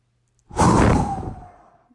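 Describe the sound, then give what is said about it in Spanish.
A deep inhaled breath during a guided breathing exercise: one airy, rushing swell lasting about a second that fades gradually, heard alone. “Inhala.”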